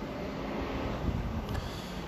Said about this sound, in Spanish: hace frío, ¿ah? O sea, no, no, hace frío, frío, pero está, está desde luego más fresquito, hay harto viento.